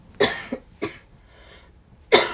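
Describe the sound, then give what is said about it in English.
Harsh coughing from a person who has just choked on their own saliva: a few sharp, raspy coughs separated by short pauses, then a final loud cough at the end. “excuse me, guys. Choked on my spit. Sorry.”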